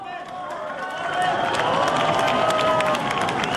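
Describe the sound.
Crowd applause and cheering for the prime minister in Stepanakert's Renaissance Square in 2019. Dense clapping grows louder after the first second, with raised voices mixed into the steady roar.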